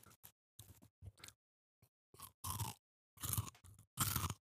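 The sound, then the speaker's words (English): Close-miked chewing of biscuits and gravy, with many soft, irregular crunchy and wet bites and mouth sounds, each burst brief and quiet with short gaps between. “ASMR for the freaks out there. Biscuits and gravy.”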